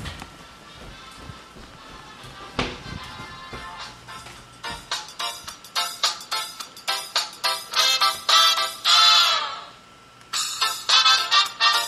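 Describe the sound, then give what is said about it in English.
A mobile phone ringtone plays a bright, repeating melodic pattern of quick tonal pulses, loud and insistent, pausing briefly before it starts again. “did you hear that? That was Michelle's ringtone. I had to run across the house.”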